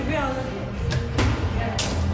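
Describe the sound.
A beginner shoots an archery arrow at a target in a large indoor hall. A few sharp thumps and snaps cut through the steady background while people talk.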